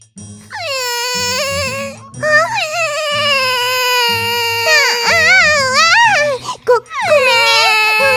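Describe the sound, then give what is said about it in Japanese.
A young child wails loudly during a squabble with an older sister over a pair of underwear, a high, sustained cry with wobbling pitch broken by a few short gasping pauses. “ごめん、返すから泣きやめ。”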